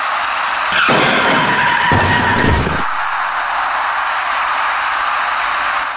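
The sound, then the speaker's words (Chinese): A white minibus coming down off a bridge at night on a city ring-road side lane strikes an electric bicycle rider. A harsh skid-like rushing burst lasts about two seconds over a steady background hiss. “我们看到这辆盘桥而下的白色小客撞上了一位电动自行车的骑车人”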